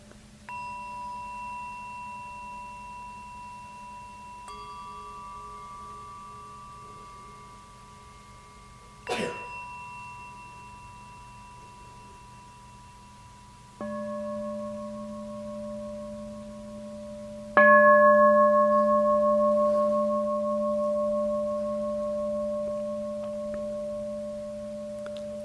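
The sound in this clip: Meditation gongs ring in a few separate strikes, each adding a sustained, pure humming tone that layers over the ones still sounding, so the ringing grows steadily fuller and louder with no voices.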